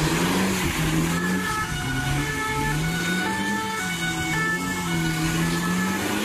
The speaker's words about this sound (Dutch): Blijft de Formule 1-coureur, dus hij draait even lekker de donutjes.